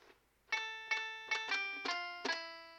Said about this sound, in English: so that is the sound of the banjo. Oh my God. Banjo. I'm gonna play a little ditty now.